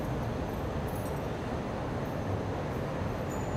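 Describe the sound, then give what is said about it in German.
A light rail tram pulling into its depot gives a steady, even low rumble of wheels and running gear that holds at a constant level without distinct clanks. “Hinter ihm bekommt die erste Stadtbahn ihre Einfahrtsgenehmigung.”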